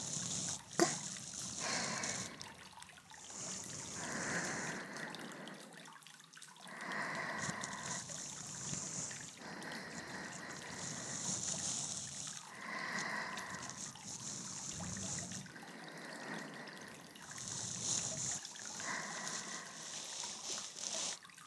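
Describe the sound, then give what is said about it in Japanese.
Hot water flows faintly during a gentle ear-cleaning session, a soft, continuous trickle that swells and eases slightly in level without pausing, quiet throughout. “お湯の流れる音をかすかに聞きながらする耳かき”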